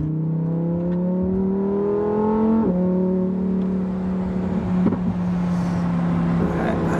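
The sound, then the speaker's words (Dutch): Engine drone from a rear-wheel-drive Lamborghini Huracán Technica sports car with 640 hp, accelerating. A loud, steady, harmonic hum with a slight drift in pitch and a brief shift partway through. “Ja, de Huracan Technica wil echt wel een beetje dwars gaan. Ik kan hem overigens ook wel echt gewoon lekker tegen die grens aanrijden.”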